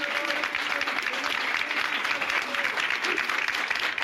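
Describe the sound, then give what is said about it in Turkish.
Municipal workers in Karşıyaka, İzmir, applaud as a protest while the mayor makes her way into the council chamber. The crowd's clapping is steady and continuous throughout, with no break or swell. “Belediye Başkanı Yıldız Ünsal'ın meclis toplantısına katılmak üzere salona yöneldiği sırada memurlar hep birazdan alkışlı protesto başlattı. Başkan Ünsal alkışlar eşliğinde belediye meclis salonuna zorlukla giriş yaptı.”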